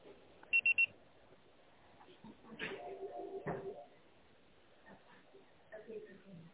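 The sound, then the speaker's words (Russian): Voicemail beep signal: three short, high-pitched electronic tones in quick succession, followed by faint vocal sounds. “Можете оставить сообщение после сигнала.”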